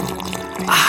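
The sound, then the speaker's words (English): Iced coffee is poured in a brief liquid splash. A soft gurgling trickle swells into a louder, hissing rush at the end. “Hear that? That's the sound of a cool, delicious McCafe iced coffee.”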